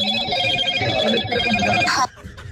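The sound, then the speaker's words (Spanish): A telephone rings as a call is placed: a steady electronic ring with bright, layered tones that holds for about two seconds, then cuts off abruptly. “Ya le están marcando.”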